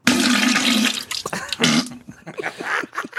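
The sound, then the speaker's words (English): Violent toilet flush sound effect: a loud roaring rush of water lasting about a second, then choppy sputtering gurgles and drips with bursts of renewed surging. “Violent Toilet Thing sound effect”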